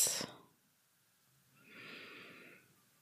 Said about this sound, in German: indem wir fünf ganz tiefe Atemzüge nehmen. Atme ein und wieder aus.